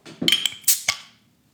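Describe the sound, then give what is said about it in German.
A beer bottle being opened with a bottle opener gives several bright metallic clinks and taps in quick succession, followed by a short fading ring, with no voices. “Wie besser das klingt mit diesem Öffner?”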